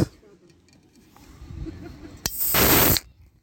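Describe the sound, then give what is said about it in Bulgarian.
A beer bottle being opened: a sharp pop, then a loud burst of fizzing hiss that lasts under a second and cuts off abruptly, preceded by a quieter low voice murmuring. “Сега, който слуша, му се е припил биричка. Отварям ли? Разбира се. Ето, още един ASMR сегмент.”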